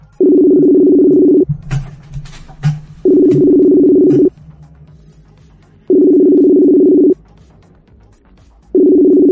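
Telephone ringback tones play while a call is placed back over a computer connection: steady, mid-pitched tone bursts of about a second each, separated by longer pauses with faint background noise. Three full bursts are heard, with a fourth starting at the end.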